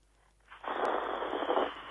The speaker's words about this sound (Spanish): ¿Cómo ronca? Va a ser un aserradero.